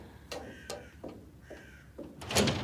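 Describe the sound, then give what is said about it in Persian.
A door being opened, heard as a few soft clunks and rattles spaced apart, followed by a louder burst of handling noise at the end. “باز کنید درو.”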